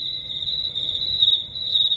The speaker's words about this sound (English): Cricket time. Cricket time. Cricket time.